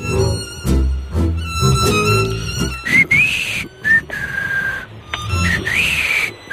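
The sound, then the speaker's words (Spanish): A person whistles a tune with a dry mouth, a thin, wavering melody of sustained high notes with short breaks between phrases, over a dense tonal backdrop in the first half. “Bonito silbido.”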